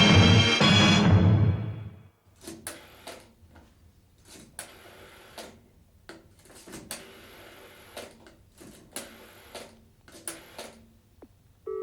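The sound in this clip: Telephone dialing for a call comes through as a series of short, faint mechanical clicks and clatters in irregular bursts, each separated by quiet pauses.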